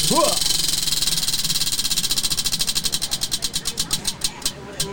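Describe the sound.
A prize wheel spun during a Halloween game clatters with rapid ticks that gradually spread out as it slows toward a stop, after a brief voice at the start.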